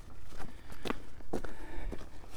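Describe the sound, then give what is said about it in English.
Footsteps walking up a track sound as a few soft, uneven crunching steps, quiet and irregular, over faint background noise. “It's now a short walk up a track”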